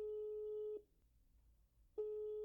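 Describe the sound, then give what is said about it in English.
A telephone line tone after dialing a number that cannot be completed: a steady, mid-pitched electronic tone cuts off, falls silent for about a second, then sounds again. “So we'll see if we can dial old Harpo up.”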